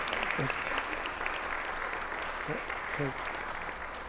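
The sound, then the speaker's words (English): Applause from students at an end-of-term language celebration, a dense, even patter of clapping lasting about four seconds, with a few voices faintly mixed in. “So give yourself a pat on the back or applause, however you want.”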